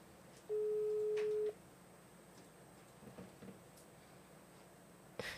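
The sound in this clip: Ringing tone on an outgoing telephone call: one steady, low-pitched tone lasting about a second. Then comes a quiet line with faint rustles, and a small click near the end.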